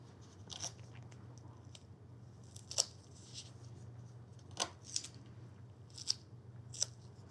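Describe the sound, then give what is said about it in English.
Medical tape is applied to secure a wound dressing over a bandage during pediatric first aid for bleeding. It makes faint, crisp ripping and snipping sounds in a few short bursts against a quiet background. “Tape to secure the dressing.”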